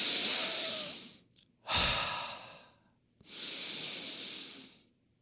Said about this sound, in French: Je prends une bouteille d'eau, je bois. Je prends le temps de poser ma bouteille. Je respire.